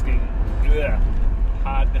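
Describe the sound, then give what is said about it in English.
Road traffic noise heard from inside a car driving down a road, recorded on an iPhone with earbuds: a steady, loud low rumble throughout, with brief voice sounds over it. “please don't get deterred by it, but you will hear traffic noise and whatnot”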